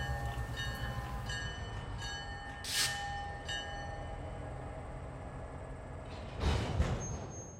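A train pulls into a station with a steady low rumble and sustained high, whistling metallic tones, broken by two brief bursts of hiss, one midway and a louder one near the end.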